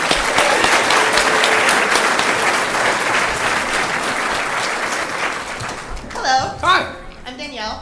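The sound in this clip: Loud, dense audience applause that holds steady for about six seconds, then fades as people begin talking and cheering.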